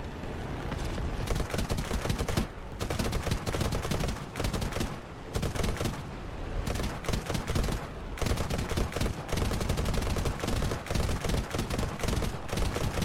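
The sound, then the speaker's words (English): Rapid video-game gunfire as the player flies and shoots down targets: loud, sustained bursts of fast shots with only brief pauses between them, and no talk. “This is where I was trying to shoot these down.”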